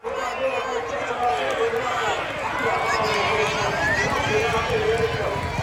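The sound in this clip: Horse race crowd at a racecourse festival in York: a steady, loud roar of spectators with running hooves blended in and a voice talking over the noise.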